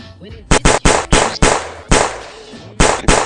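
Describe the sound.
Gunshot sound effect: a rapid, uneven volley of sharp, loud cracks, bunched tightly at first, then a gap before a final pair of shots.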